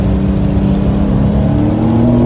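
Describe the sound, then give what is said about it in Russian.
Engine of a Porsche 911 Carrera S, a loud, steady mechanical drone with a deep, humming low end that holds an even level throughout, with no talking. “911 Carrera”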